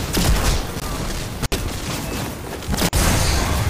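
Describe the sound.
Gunfire from a shotgun kill in a Gambit video game match: dense, loud, continuous bursts of shots and blasts, broken by two very brief gaps.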